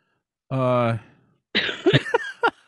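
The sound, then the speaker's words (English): A person's cough with a strong voiced, tonal quality, followed after a short pause by a few brief, sharp vocal bursts. “there's cough number one.”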